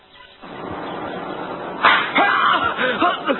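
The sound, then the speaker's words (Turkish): A single sharp slap, a face-smack effect in a Turkish radio drama, cracks out near the middle amid spoken dialogue, followed by a few softer knocks as the voices continue. “Kim tokat vurdu? Etrafta kimse de yok. Bir bakışa bir tokat.”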